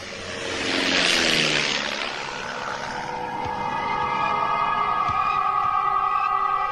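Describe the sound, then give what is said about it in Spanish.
Droning roar of a squadron of five propeller warplanes flying overhead, a staged sound effect; a broad rushing swell peaks early, then eases into a steady, layered engine hum with sustained tones that hold to the end. “¡Escuchen! ¡Escuchen! Parecen aviones. ¡Son aviones!”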